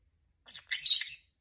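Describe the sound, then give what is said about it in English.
A pet bird chirps: a short high chirp, then a longer, louder run of shrill, bright chirps and trills that fades out after about a second, with no other sound around it. “Who's a pretty, pretty bird?”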